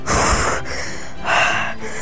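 Heavy breathing from a person, two loud, breathy gasping breaths with hissy air noise, separated by a quieter stretch of panting.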